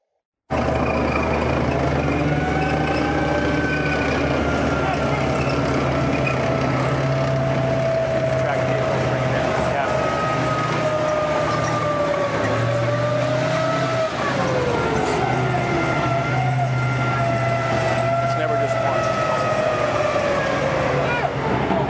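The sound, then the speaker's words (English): A vehicle drives through Ramadi carrying a wounded person from combat, its loud, steady engine drone running throughout with whining tones that drift slowly in pitch. “you get brought in by whatever vehicle happens to be nearby at the time,”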